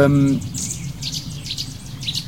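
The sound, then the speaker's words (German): Eurasian nuthatches calling in a lively group: many sharp, high chirps and short piping notes repeated in quick, uneven bursts over a low background rumble. “Ui, die Kleiber gehen ab. Kleiberparty neben mir.”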